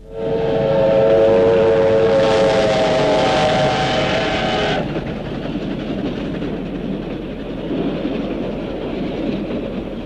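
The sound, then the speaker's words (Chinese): A military train speeds past at night, its heavy rolling rumble loud throughout, with a sustained whistle blast over the first half before the steady clatter carries on alone. “一列军用火车在夜色中奔驰而过”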